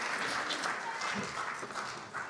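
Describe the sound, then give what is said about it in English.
Audience applause, a steady, even patter of many hands clapping that stays faint and continuous throughout, with no distinct voices. “Can you guys give these three a big clap as they head on down?”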